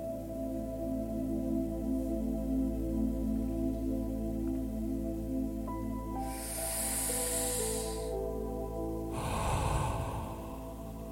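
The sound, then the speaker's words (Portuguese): Calm breathing in and out during a meditation: a slow, soft airy inhale, a brief pause, then a gentler exhale, all over a steady, sustained musical drone, with no speech. “Mais uma vez, inspire calma e expire soltando qualquer tensão.”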